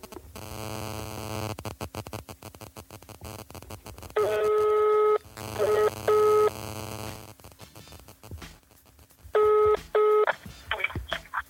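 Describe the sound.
Telephone dialing tones as a phone call is placed: a few clustered groups of sharp, beeping keypad tones over a steady electronic hum and static, with short gaps between the groups.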